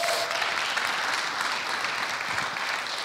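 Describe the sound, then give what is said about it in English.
A church audience applauds with a continuous wash of clapping hands, even and sustained at a moderate level from start to finish. “I want to welcome everybody who's watching through Church Online. Let's give them a big hand.”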